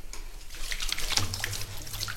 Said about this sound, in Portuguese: Agora vou fazer o escoamento do leite para botar a coalha.